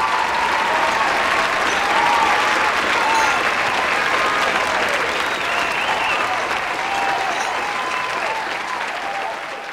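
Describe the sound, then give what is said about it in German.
Raging applause from a large crowd for a speaker praising Kurt Eisner: loud, continuous clapping that roars for the full length and eases only slightly at the end. “Erstaunlicher noch als diese Leidenschaft des einzelnen Sprechers war der tobende, minutenlang tobende Beifall, mit der jede seiner Liebeserklärungen für Eisner aufgenommen wurde.”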